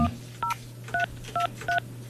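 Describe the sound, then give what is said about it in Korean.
Telephone keypad tones as a number is dialled on a landline phone: five short, evenly spaced dual-pitch beeps over a low, steady hum. “제가 네. 직접 한번 전화를 걸어보도록 하겠습니다.”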